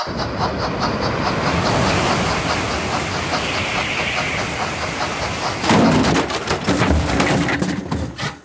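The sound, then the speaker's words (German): A Transrapid maglev train passing on track 3 makes a steady, loud rolling rumble that turns into a quick rhythmic clatter near the end. “Und da überholt ebenfalls auf Gleis 3 der Transrapid 3010 von Shanghai Hauptbahnhof nach Stuttgart 21.”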